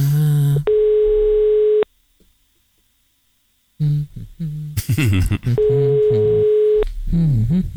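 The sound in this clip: Telephone ringback tone as a radio host calls a listener: two steady, mid-pitched tones about a second long each, separated by a silent gap and stretches of voice.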